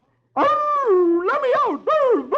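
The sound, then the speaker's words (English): A human voice imitates a fox howling in a few long, drawn-out wails whose pitch rises and falls. The wails are loud and sound alone. “And last picture, he howls,”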